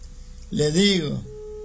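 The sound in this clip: Telephone ringing tone on a call line: a steady, low, thin tone is audible at the start and again at the end, with a brief voice sounding over the middle.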